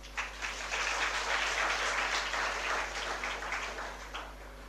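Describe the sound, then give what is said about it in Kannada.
Audience applause at a talk, a steady wash of many hands clapping that carries evenly from start to end at a fairly soft level, with no voices over it. “ಅದೆಲ್ಲ ಚಪ್ಪಾಳೆ ಹೊಡಿದಾರೆ next ಮಾತಿಗೆ ಹೊಡಿರಿ”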